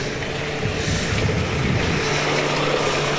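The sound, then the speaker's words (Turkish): A vehicle moves through a flooded street near a stream bed, its loud rumbling engine and rushing noise forming a dense, continuous roar. “Dikkat et, araç var.”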